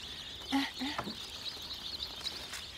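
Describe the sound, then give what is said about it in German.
Chicks peeping in the sunshine on a hot day: a faint, continuous high-pitched chorus of thin cheeps, with a few short, lower sounds near the start. “Heute ist zwar einer der wärmsten Tage in diesem Jahr, dennoch müssen die Küken schnell in den noch wärmeren Stall.”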